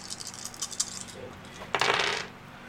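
Dice clatter across a table for an attack roll in a tabletop role-playing game: a few faint ticks, then one short, bright rattle.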